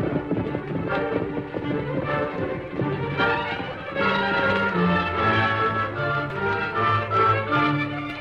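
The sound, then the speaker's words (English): Hooves of two horses riding away from town, a steady rapid clip-clop running beneath loud music throughout. “With Missouri in jail, the Lone Ranger and Tonto rode toward a cave some distance from town.”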